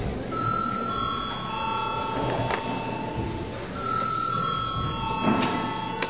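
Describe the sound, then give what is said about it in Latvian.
A chairman's bell is rung twice in a council session. Each strike leaves clear, high metallic tones that ring on and fade slowly. “Lūdzu zvanu.”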